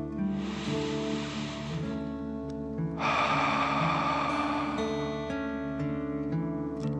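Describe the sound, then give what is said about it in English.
Dragon-breath exercise: a slow, deep breath drawn in, a pause, then a long, airy exhale. Both breaths are steady and unhurried over soft, sustained background music. “Again, softly breathe in. Feel the cool air coming in your nose and filling your tummy. Softly breathe out nice warm fire.”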